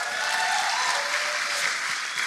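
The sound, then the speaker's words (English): Audience applause for TT racing legend John McGuinness at a stage event: a dense, steady wash of many hands clapping, continuous and even in loudness from start to finish. “John McGuinness, he's still here. Give him a round of applause.”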